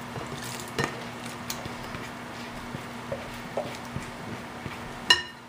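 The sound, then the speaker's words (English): Pineapple is stirred into a mixture in a bowl: faint, soft scraping broken by a few light utensil clinks, with one sharper knock near the end. “We're not gonna need the whisk anymore. We're just going to mix that in.”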